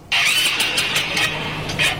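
A stalled motorcycle engine is cranked but will not start, producing rapid rhythmic churning bursts that repeat steadily for about two seconds without catching into a running idle.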